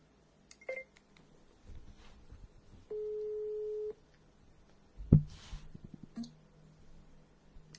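A low, steady telephone call tone sounds once for about a second, surrounded by faint clicks, rustling handling noise and a single thump.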